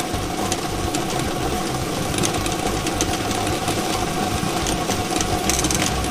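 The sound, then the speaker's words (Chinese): A lottery drawing machine starts up and runs, giving a steady, loud mechanical whirring with light rattling throughout and no talking. “摇奖机正式启动了，祝大家好运，共同来关注开奖号码的产生。”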